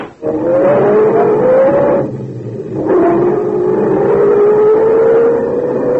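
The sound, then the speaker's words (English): A sedan's engine accelerating as the car drives off, a loud steady drone whose pitch climbs, briefly drops away mid-way, then picks up and rises again. “You hurry the half block to the sedan. And Laura. Move over. I'll drive.”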